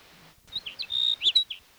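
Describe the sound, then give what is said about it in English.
Sage sparrow song: a brief, high-pitched phrase of several thin chirps with one sustained whistled note in the middle, clear and alone over a quiet background. “Here's sage sparrow number one.”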